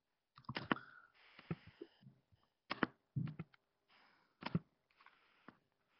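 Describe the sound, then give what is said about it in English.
Typing on a computer keyboard produces faint, irregular clusters of sharp clicks separated by short pauses. “I'm going to type it in the notes section up here.”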